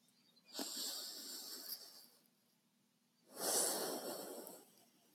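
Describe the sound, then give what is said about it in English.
Nasal breathing through a single nostril during an alternate-nostril breathing exercise: two long, airy, hissing breaths separated by a short quiet pause, soft and close, with no talking. “close it on one of the nostrils and sound really funny. And then we'll do an inhale in and an exhale out the same nostril. And then switch.”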